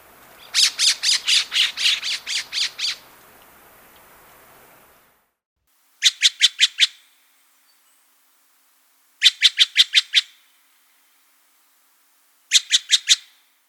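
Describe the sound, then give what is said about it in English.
Harsh squawking calls of a Woodhouse's scrub jay in a rapid run of about ten notes, followed by Steller's jay calls in three separate short bursts of several rasping notes each. “First the Woodhouse scrub jay, followed by the Steller's jay.”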